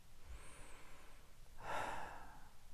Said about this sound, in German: du schließt die Augen und machst mal ein, zwei ganz bewusste Atemzüge.